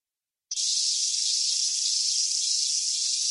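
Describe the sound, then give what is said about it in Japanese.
Cicadas shrill loudly from a tree beside a park bench on a hot day: a harsh, high, continuous buzzing that starts abruptly and holds steady and loud to the end, with no talking. “ジャージャーと激しくセミが鳴いている。”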